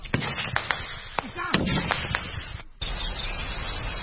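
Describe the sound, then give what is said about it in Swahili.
Gunfire from fighting between soldiers and rebels in forest near a town in the Rwenzori area: many sharp, irregular cracks and bursts, then a brief lull before a steady rumble of background noise resumes. “ambako ni vigumu sisi kuweza kupeleka kamera yetu kwa sababu risasi sasa zinaendelea.”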